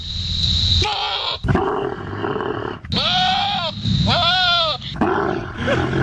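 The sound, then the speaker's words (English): A voice imitates the mating call of a camel crossed with a goat, with grunting, roaring noises and then two long, wavering bleats, loud and strained. “this is what it would sound like if a camel mated with a goat.”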